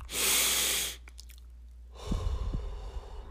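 One slow, deep breath during a counted breathing exercise: a loud, airy inhale lasting about a second, a short pause, then a softer, longer exhale.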